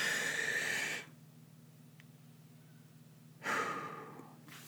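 A person takes a deep breath: two soft, airy rushes of breath separated by a quiet pause over a faint steady hum.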